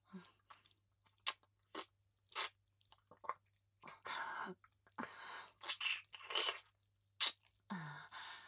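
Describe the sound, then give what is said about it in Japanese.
Gentle biting and chewing by a mouth: many short, moist, crunchy bursts, some sharp and brief, others longer and rougher, with no talk. “噛んじゃうね。優しく噛むけど、痛かったら言ってね。”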